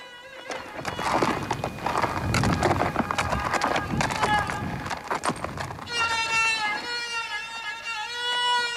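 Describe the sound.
Horse hooves clip-clopping in a quick, running rhythm, many sharp hoofbeats in steady succession at a loud level that then gives way to a wavering tonal sound.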